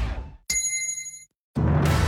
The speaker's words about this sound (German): Trinkpause. Der Gong.